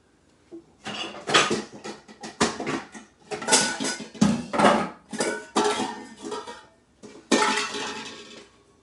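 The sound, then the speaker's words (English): Dishes clatter as a bowl is pulled out from among them, giving a busy run of many sharp clinks and knocks of varying loudness, with no talk. “Let's get a bowl out.”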